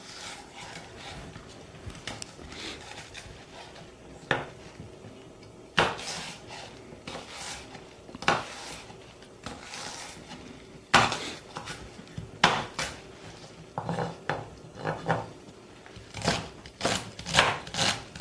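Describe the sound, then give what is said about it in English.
A knife chops celery into long strips on a cutting board, with many sharp, irregular knocks and clacks spread through a quiet background and no talk. “I'm gonna cut this celery into long stripes.”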